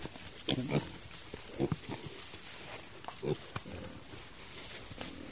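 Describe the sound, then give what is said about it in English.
Seven-week-old Tamworth piglets, weaned that same day, make faint, short grunts and snuffles. Several soft, irregular bursts come and go over a quiet, noisy background. “What we're looking at here are some little 7-week-old Tamworth piglets. They were just weaned today.”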